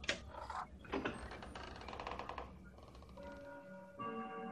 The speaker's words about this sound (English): Well, that was perfect timing with your clock. Yeah. The door opens and then your clock chimes. Eerie.